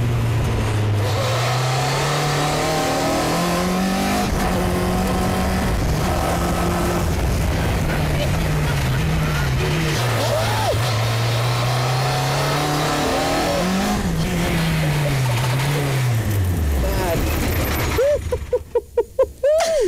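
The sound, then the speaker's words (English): Onboard engine roar of a very fast car, recorded from a helmet: a loud, sustained engine note whose pitch climbs and drops repeatedly with gear changes. It ends in a few choppy dropouts as the microphone is blown out of the helmet. “The car was so fast that it blew the microphone out of my helmet. So I'll let you have a listen to the clip now.”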